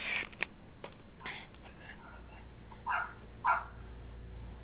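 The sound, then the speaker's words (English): A neighbor's dog barks a few times, faint and muffled, with the two clearest barks coming close together near the end over a quiet background. “So I hear a dog there. Yes, you do. That's my neighbor's dog.”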